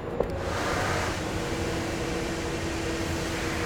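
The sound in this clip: Suction device emptying the toilet tank of a train, giving a steady, even whooshing drone that holds at one level throughout with no breaks or talk.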